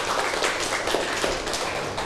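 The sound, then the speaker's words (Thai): Classroom students clap for a classmate, a brief dense patter of many hands that stays even throughout. “เก่งมากเลยปรบมือให้เพื่อนหน่อยค่ะ”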